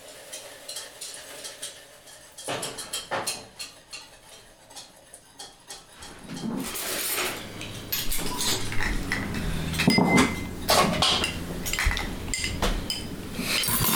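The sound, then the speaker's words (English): Whisking pudding in a bowl for a toffee mocha dirt cup: rapid metallic clinks and scraping, light and sparse at first, then a louder, continuous busy whisking that fills the rest. “there's like a 20 minute long segment that's like mostly just silence and then whisking of pudding. It's pretty great, so that's what you're hearing in the background here.”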